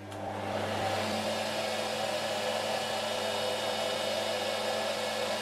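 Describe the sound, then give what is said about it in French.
A yarn twisting machine winds thread onto a bobbin while its guide travels up and down to spread the thread. It makes a steady, fairly faint whirring drone with a low hum, unbroken and without talk. “on a parti sur la machine qui monte et qui descend pour répartir le fil sur la hauteur de la bobine.”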